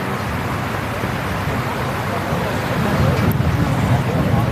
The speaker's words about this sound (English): You can hear the wind, Jamie, as well. Certainly can